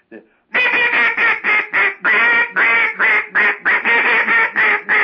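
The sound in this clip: A rapid series of loud, nasal duck quacks blown on an old-style duck call with a maroon barrel and blue end, a design dating from 1976. The calls come in a steady, rhythmic run after a brief faint note.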